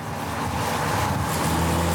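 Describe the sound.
A rebuilt GTI car on its first test drive: a steady, fairly loud rumble of engine and road noise with a low hum underneath, continuous throughout with no voices.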